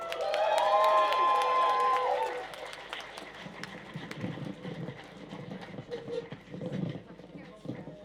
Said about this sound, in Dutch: Een daverend applaus voor Fresco.